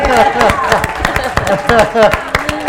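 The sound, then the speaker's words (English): An audience claps hands in praise during a church service in the sanctuary, sharp claps in a quick, fairly regular rhythm, loud and lively, with voices sounding over the clapping. “That was a little pitiful, but let's give God a big hand clap of praise.”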